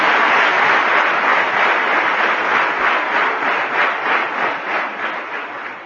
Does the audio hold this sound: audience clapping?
yes